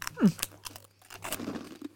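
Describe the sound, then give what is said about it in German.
Loud crunchy chewing of a snack right into a microphone, with irregular crackling bites and wet mouth noises over a low steady hum. “wenn ich jetzt in die Kamera ins Mikrofon reinschmatze.”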